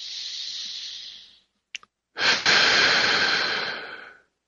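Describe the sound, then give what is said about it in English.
Deep breathing: two long, airy breaths with a brief pause and a couple of small clicks between them. The second breath is longer and fuller, and each fades out smoothly. “Take a deep breath.”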